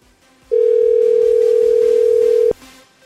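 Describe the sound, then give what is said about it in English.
A phone call-screening tone sounds as one steady, single-pitched beep lasting about two seconds, loud and clean against near silence. “Please state your name after the tone, and Google Voice will try to connect.”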